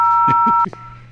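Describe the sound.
A steady two-tone telephone keypad beep from dialing a call, held for about half a second under a voice and then cutting off abruptly.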